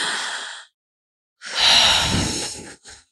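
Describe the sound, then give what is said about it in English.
A collective deep breath: a breathy inhale, a pause, then a long, loud, sighing exhale with a brief final puff of breath, with no talking. “Let's all do a collective deep breath for everyone. Ready?”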